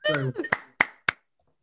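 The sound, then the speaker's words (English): Applause for a comedian coming on stage, heard as three sharp, evenly spaced handclaps right after a short burst of voice, followed by quiet. “Let's bring our next performer on who brings much education and a lot of world travel to the stage. Big round of applause.”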